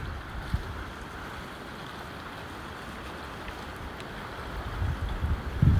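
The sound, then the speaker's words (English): Blustery autumn wind at a woodland dam roars as a steady, low rumble and buffets the microphone, with stronger gusts pushing in toward the end. “I do hope you can hear me above the wind here. It really is quite blustery.”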